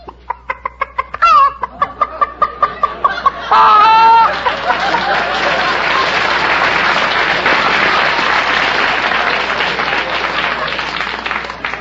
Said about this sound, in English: Can you cackle? You mean make a noise like a chicken? Cackle.